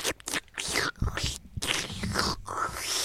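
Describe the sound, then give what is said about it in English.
Wet crunching, chewing and tearing mouth sounds, made by a person imitating a creature ripping into corpses, come in irregular bursts of moderate loudness with short gaps and groaning tones mixed in. “As Ripper just tears into them, it is that messy. Was some nice ASMR for our listeners.”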